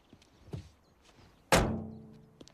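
A truck door slams as the driver gets out: one heavy, solid thunk with a short ringing tail, preceded by a few faint, soft knocks.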